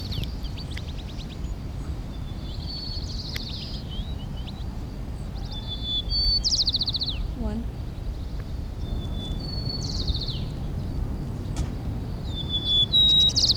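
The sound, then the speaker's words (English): A white-crowned sparrow sings repeated short, high whistled and trilled phrases at irregular intervals. The song is faint over a steady low rumble of background noise. “White crown sparrow, okay.”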